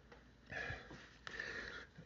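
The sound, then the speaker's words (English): Two faint, breathy sniffs come from a person during an allergy attack, each a short nasal inhale, separated by a brief pause. “here comes an allergy attack”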